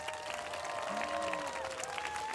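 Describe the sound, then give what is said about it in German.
Audience applause on a dance show as two dancers are welcomed: soft, steady clapping with a sustained tonal hum beneath, holding an even, low level for the whole stretch. “Ein Applaus für Maja Pahari und Robert Bischoff.”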